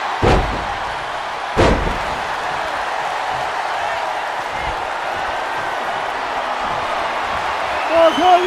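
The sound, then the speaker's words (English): A wrestler's scoop slam in a wrestling video game: two heavy, sharp thuds land about a second apart over a constant crowd roar, with a commentator talking over the action. “Scoop slam.”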